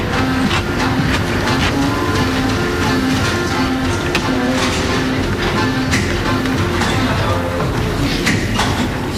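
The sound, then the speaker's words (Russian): Railway station platform in a radio drama, a continuous, loud rumble of train and rail noise with steady humming tones and scattered dull thumps, unbroken from start to finish. “И вот снова знакомая железнодорожная станция. Владимир Сергеевич с чемоданами быстро идет по платформе.”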